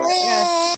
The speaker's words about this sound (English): I don't know if you heard him crying a little bit.